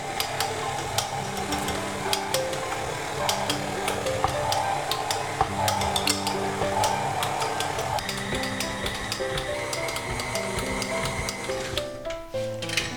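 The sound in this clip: Stand mixer kneading dough at medium speed while butter is added bit by bit, a steady mechanical whir threaded with quick rhythmic ticks and soft slapping throughout.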